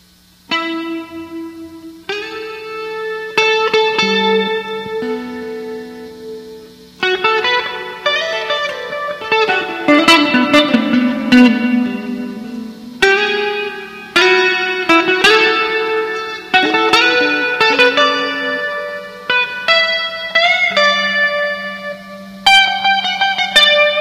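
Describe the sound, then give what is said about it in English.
An electric guitar plays through an emulated twin reverb amplifier with no other effects, picking single notes and ringing chords in a loose, changing rhythm, with clear sustain and no voices. “Emulation of a twin reverb with nothing else on.”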